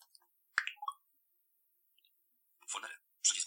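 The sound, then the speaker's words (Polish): Soft clicks from pressing the mode key on a Focus braille display: a quiet pair of taps, then a couple of slightly louder clicking bursts after a pause. “Naciskam prawy klawisz trybu znajdujący się nad prawym klawiszem nawigacji, to jest taki guzik.”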